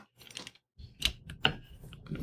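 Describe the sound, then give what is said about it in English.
A mechanical corkscrew works into a wine bottle after the foil is removed, giving a few quiet, irregular clicks, taps and brief scraping squeaks with short pauses between them. “Okay, that is done. Foil is off. Now I need to get my mechanical corkscrew. There we go.”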